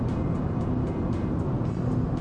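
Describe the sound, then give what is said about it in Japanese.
Steady, loud low road and engine rumble from inside a car cruising through a highway tunnel at about 95–100 km/h, continuous and even throughout with no distinct separate events. “さてまたトンネルに入るよ、トンネルに入るよ。じゃトンネル入りまー、入りました。あんま音変わんないね、やっぱりね。”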